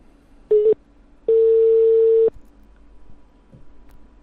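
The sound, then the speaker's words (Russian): Telephone tones as a number is dialled: a short beep followed by a longer steady tone at the same pitch, then quiet line noise. “Че, ребят, набираю, наверное, да? Че-то вы молчите, блин. Все, набираю.”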